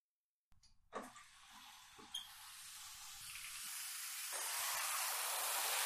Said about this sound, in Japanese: じゃあシャンプーはこんなものかな。一回流してトリートメントするね。